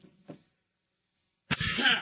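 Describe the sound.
A person clears their throat in one short, harsh, raspy burst that follows a faint brief noise and a near-silent pause, with no talk.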